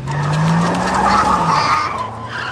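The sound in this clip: A school bus pulls away with its tires skidding: a loud, sustained squeal with a rough engine roar underneath that holds steady for the whole stretch, with no voices.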